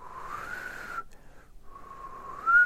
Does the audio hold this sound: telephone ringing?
no

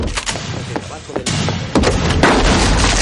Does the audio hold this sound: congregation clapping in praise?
no

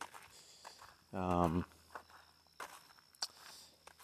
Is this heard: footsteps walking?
yes

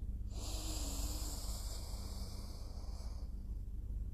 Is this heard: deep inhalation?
yes

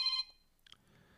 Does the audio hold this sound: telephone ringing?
yes

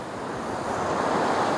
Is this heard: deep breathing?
no

